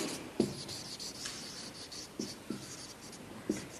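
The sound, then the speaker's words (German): Handwriting on paper with a pen as someone writes out a sentence: faint, soft scratching strokes, broken by a few sharper taps where the pen meets the page. “jetzt muss ich das aufschreiben, ne?”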